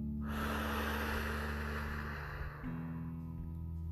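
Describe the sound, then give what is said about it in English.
A deep breath blown out in one long, soft, breathy rush of air lasting about two seconds, fading away over a low steady hum, with no talking. “All right, everybody take a deep breath. Blow it out.”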